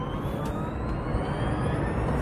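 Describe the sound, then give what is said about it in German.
A car accelerates on an empty parking deck during a test drive, a steady low rumble beneath a high whine that climbs in pitch throughout. “du darfst gerne, wir sind auf dem Parkdeck alleine, auch mal ein bisschen aufs Gas gehen.”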